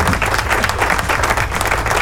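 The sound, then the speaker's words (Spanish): Dense applause from many hands, sustained and even for about two seconds, loud and alone with no talking over it. “¡Aplauso!”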